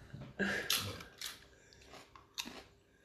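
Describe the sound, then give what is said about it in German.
Spicy oriental-flavoured potato crisps crunch as someone bites and chews them, giving a few sharp, crackly bursts with quiet pauses between. “Ja, Chips, ich weiß, die Chips, die er jetzt isst, die, die sind ihm schon zu scharf. So Oriental-Chips, äh, hätten wir schon.”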